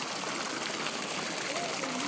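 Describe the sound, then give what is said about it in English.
Water in a fountain beside a pool makes a steady, broad wash of noise. It stays at an even level throughout without breaks. “We walk around the pool a bit. Sticking close to the fountain.”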